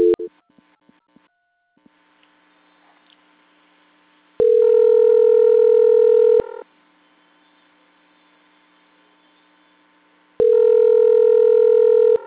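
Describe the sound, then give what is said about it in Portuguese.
Telephone tones while a call is transferred: a short tone and a few faint clicks, then two long, steady tone bursts about six seconds apart, over a low constant hum. “Eu vou transferir a ligação, ela vai ficar muda, mas ela não foi desligada, tá? Aguarde, por favor. Tá bom. Transferência.”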